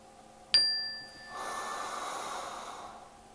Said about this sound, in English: expanding the chest, filling the lungs and stomach area, and exhaling tall